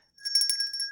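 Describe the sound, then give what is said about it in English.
A small hand bell kept beside a host, rung in a quick run of many bright metallic strokes over a sustained high ringing tone, heard alone without talk. “That sound is the pimping bell, which exists to highlight especially question-worthy content, so pay attention when the pimping bell rings.”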